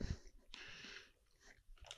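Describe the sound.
Close-up chewing while eating a Crunchwrap: soft crunchy bites and moist mouth sounds come in a few quiet, uneven bursts.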